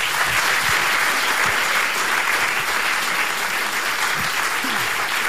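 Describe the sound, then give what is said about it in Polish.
Applause from a studio audience at an evening radio concert event: dense, unbroken clapping that stays loud and even from start to finish, with no talk over it. “Proszę ja państwa, wiem, dla nich wszystkich jeszcze raz brawa.”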